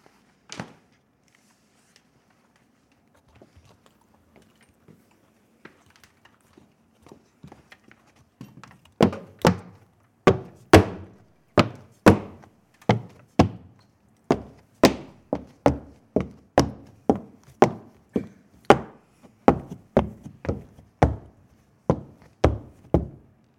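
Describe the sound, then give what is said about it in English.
Footsteps climbing a flight of stairs: many heavy, regular thumping steps, faint and sparse at first, then loud and evenly paced in a long run, with no talk. “I'm gonna walk up the stairs.”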